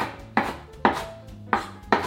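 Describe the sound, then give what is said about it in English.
Rough knife chopping of fresh herb leaves and stems for vegan chana masala: several crisp, evenly spaced thuds with short fading tails, sounding alone without talk. “I don't mind when there's some stems in there, it's okay. And I'm just gonna give it a rough chop.”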